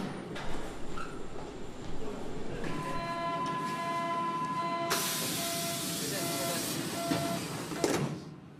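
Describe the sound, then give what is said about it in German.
A train passing in Berlin, a steady rushing rumble joined midway by a high ringing squeal, then a loud hissing surge that fades out near the end. “Oh, die Bahn.”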